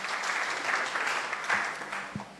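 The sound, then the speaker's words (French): Audience applause at a ceremony honouring dioceses for their exam pass rates: a steady, dense patter of many hands clapping, fairly loud and even from start to finish. “On peut les applaudir.”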